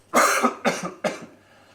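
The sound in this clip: Three harsh, loud coughs come one after another with short gaps, each a rough burst that fades quickly, heard alone without talk.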